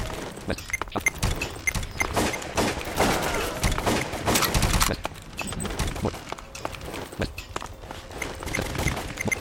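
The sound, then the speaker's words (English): MG4 machine gun fire in a video game: dense, rapid automatic bursts with crackling impacts that run almost without pause and stay loud, easing slightly toward the end. “MG4 on this map is cool.”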